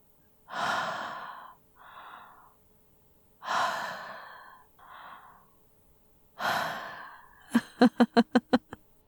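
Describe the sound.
Hot breathing close to the microphone: three long, breathy exhalations, each followed by a shorter, softer breath, then a quick run of short, sharp puffs.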